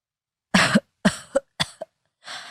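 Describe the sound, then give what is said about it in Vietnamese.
A man coughs violently in anger: six harsh, rough bursts in an irregular, rapid fit. The first is longest and loudest, two short clipped coughs follow, and a final breathy, weaker cough comes after a brief pause. “lửa giận muốn bùng lên làm cho ông ho sặc sụa.”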